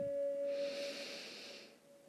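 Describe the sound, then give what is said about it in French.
A deep inhale during a guided breathing exercise: a long, airy breath that swells and lasts more than a second over a steady held tone, fading at the end. “Un autre profond inspire”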